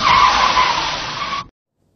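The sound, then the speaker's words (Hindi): A car's tires skid in a single loud, harsh screech that holds steady for about a second and a half, then cuts off into silence. “उसी क्षण एक motor गाड़ी आके पिताजी से टकरा गई।”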